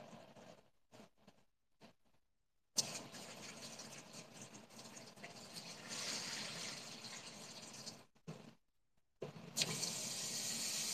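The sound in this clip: Water running from a tap as it is refilled: a few short splashes first, then a steady rushing stream for about five seconds, a brief stop, and the flow resuming.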